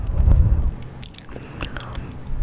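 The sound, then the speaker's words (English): Biting and chewing on cold chicken nuggets produces moist crunches and soft, smacking chews, with a low rumbling burst at the start followed by a few crisp bite sounds. “Oh, my chicken nuggets are cold. Sorry, a little ASMR for you.”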